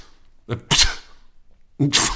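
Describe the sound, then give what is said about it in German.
A person's voice imitates a pug sneezing: two snorting sneeze bursts separated by a short pause. Each opens with a low nasal grunt and breaks into a sharp, hissing blast. “bestimmt hast du mal so einen Mops niesen hören. Das ist mir echt. Ja, aber das. Nee, das klingt so.”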